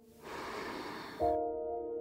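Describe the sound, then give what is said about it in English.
A deep breath drawn in and let out during a guided breathing exercise for children, heard as a soft, airy whoosh lasting about a second. “In with your breath, filling yourself up, and then letting it go.”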